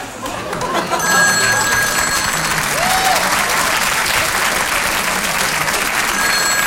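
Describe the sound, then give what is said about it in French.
Sustained audience applause rises at about one second and holds steady and loud to the end. A ringing telephone tone sounds over it briefly near the start and again at the close. “on applaudit Robert”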